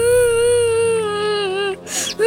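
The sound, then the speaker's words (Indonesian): A child cries in one long, drawn-out wavering wail that dips slightly in pitch, then takes a sharp breath and starts another wail. “Loh, Nak, kenapa kamu nangis?”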